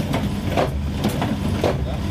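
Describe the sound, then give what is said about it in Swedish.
A tumble dryer starts up with a low, steady rumble and a few soft thumps that recur at a regular pace as the drum turns, under some talk. “Men nu startar vi den! Ja, nu startar vi torktumlaren i alla fall. Här har vi den.”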